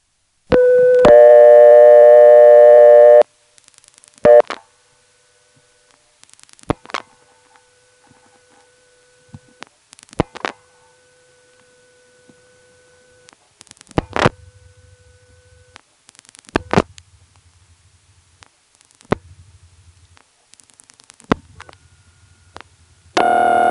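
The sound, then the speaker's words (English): Electromechanical telephone exchange selectors clicking and rattling, picked up through relay microphonics on an intra-office call; a steady call tone opens, then faint irregular bursts of clicks break through near silence on the line. “you'll hear some other selectors moving, and that's the actual acoustic sound of the selectors being picked up through the rack and transferred to our call by the microphonics of relays.”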